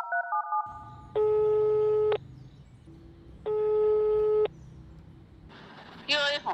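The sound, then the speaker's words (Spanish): Telephone call tones: a few short beeps, then two long, steady buzzing tones of about a second each, separated by a pause, as someone phones their grandparents. “Llamé a mis abuelos a ver si me podían llevar a Florencia.”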